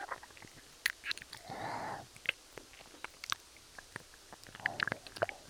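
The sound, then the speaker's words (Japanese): Wet mouth clicks and soft nibbling sounds of ASMR ear-eating, faint and close, scattered as many quick smacks with one longer breathy rush partway through. “耳、もっと食べちゃうよ。”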